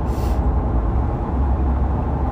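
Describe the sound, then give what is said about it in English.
A car engine drones low and steady while driving, with constant road rumble and no distinct events or talk. “Like right now, I'm driving. I have my phone next to me. I'm talking in the car. You'll hear the sound of the engine and everything like that.”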